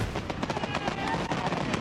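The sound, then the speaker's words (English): Fireworks set off for a Fourth of July show crackle densely, with many rapid pops and bursts running together into a loud, unbroken clatter. “The cost of 15 minutes of fireworks?”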